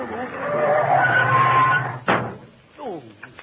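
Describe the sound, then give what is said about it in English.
Hard braking and tire skid effect from a comedy radio sketch: a steady screeching rush, then a single sharp thud, with a voice briefly following. “Look, there's someone cutting in front of you. Why don't you give him the horn? Oh, I can't. It's passing on. No. Oh. Well, slam your brake.”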